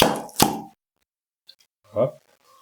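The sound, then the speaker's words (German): A swing-top beer bottle being flipped open gives a single sharp pop amid a brief burst of noise. A faint click and a short, low voiced sound follow. “Na gut, wir machen das Bier mal auf, damit wir der Sache Herr werden.”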